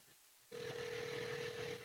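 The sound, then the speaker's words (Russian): A steady telephone line tone sounds from a radio studio phone as a call is placed. It cuts in abruptly after a short quiet stretch and holds one even, mid-pitched hum to the end. “сейчас, секунду, наберу его телефон из студии”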